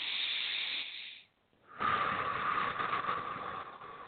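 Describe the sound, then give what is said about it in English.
A deep breath during a guided meditation: a long, airy inhale, a brief pause, then a longer, steady, hissing exhale, with no talk over it. “Okay, big breath here.”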